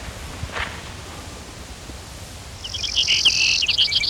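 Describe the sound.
Brewer's sparrow song: a rapid, high-pitched run of buzzy trilled notes starts partway through and carries on over steady background hiss.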